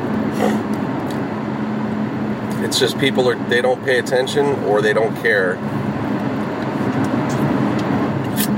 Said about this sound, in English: Sorry, guys. Just always got drama on getting on these freeways sometimes. As you hear me,